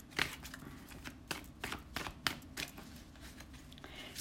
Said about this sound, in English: So we just, here we go. Good. We've got the Fool card come down, and we've got the Chariot card come down.